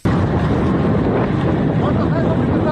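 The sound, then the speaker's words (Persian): An Iranian-made Shahed-136 kamikaze drone used by Russia flies overhead with a steady, loud, rough engine buzz, heard as an unbroken drone mixed with wind-like noise. “این صدای پهپاد انتحاری روسیه گل شمدانی دو یا همان شاهد 136 ساخت ایران است”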